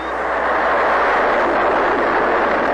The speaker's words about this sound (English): That's the sound of the Jupiter C rocket launching on January 31st, 1958.